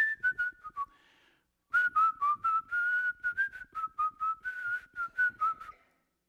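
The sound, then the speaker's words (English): A person whistles a short wavering tune quietly, with quick successive notes. A brief opening phrase is followed by a pause, then a longer run of notes. “we can whistle very quietly, like, okay, God.”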